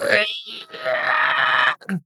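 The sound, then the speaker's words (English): A voice imitates the shriek of a pig-like monster struck during a tabletop role-playing fight, its flesh sizzling: one long, harsh, strained squealing cry, then a brief pause and a short second burst. “pig shriek and its flesh sizzles like it was not expecting this.”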